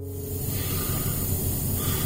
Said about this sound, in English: This is the sound of him breathing on the bed in the hospice 3 years ago, a few days before he died.